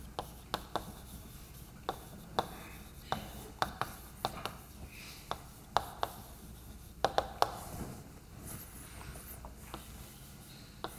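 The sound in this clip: Writing on a board while drawing a diagram of a Hilbert space: many faint, irregular sharp taps and scratchy strokes, spread unevenly over a quiet background.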